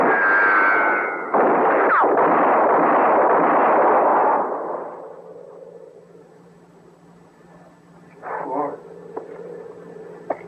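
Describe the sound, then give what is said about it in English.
Gunshot in a dramatized scene: heavy, booming bursts fill the first few seconds, then fade into a low, lingering hum with a few faint noises afterward. “She went and shot me, Mort. She killed me.”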